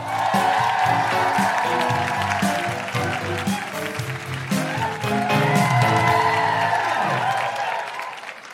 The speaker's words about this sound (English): Then put your hands together and welcome your hosts for this evening, Deborah Frances White and Nikki Britton.